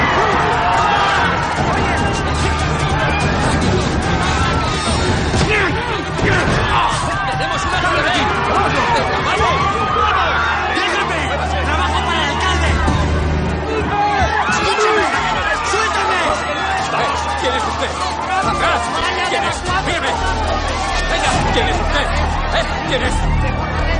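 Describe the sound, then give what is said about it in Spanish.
A panicked crowd flees a public square after shots ring out at a political speech. The loud, dense roar of many voices and commotion continues without a break throughout. “Enrique ve como Verónica, su novia, avanza entre el público que huye de la plaza”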